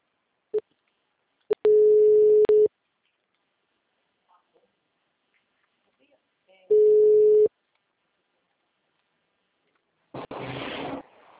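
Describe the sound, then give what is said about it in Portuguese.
A telephone call drops, leaving the disconnect tone: a few clicks, then two long, steady beeps at one pitch separated by silence, followed by a short burst of noise. “ligação caiu.”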